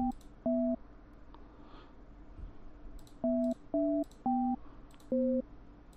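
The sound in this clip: A phone line signal for an unavailable number: short two-pitch beeps, one pair early, then a pause and a quicker run of four, faint over a low hum.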